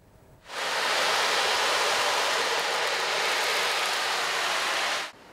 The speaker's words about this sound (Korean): 시원한 여름 바다의 파도 소리가 법당 안을 가득 채웁니다.